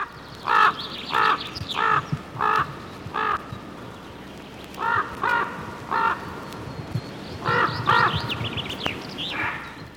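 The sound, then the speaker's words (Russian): A raven calls near a heron colony by a pond, giving loud, harsh, hoarse croaks in several evenly spaced series separated by short pauses, against a faint, steady outdoor background. “У ворона, как это приличествует для птицы с репутацией долгожителя, здесь родовое поместье. Его гнездо рядом с колонией цапель у Михайловского пруда.”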